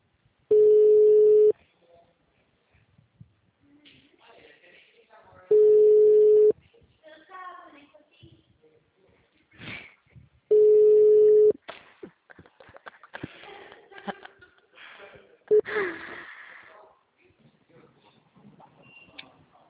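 Ringback tone of an outgoing telephone call: three long, steady tones spaced about five seconds apart, followed by faint rustling and scattered handling noises.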